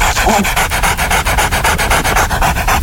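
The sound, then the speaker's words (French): A man's voice imitates a dog drinking: quick, wet lapping clicks repeated many times in a fast, even rhythm. The imitation is loud and continuous, with no other talk over it. “moi j'arrive à imiter le chien qui boit.”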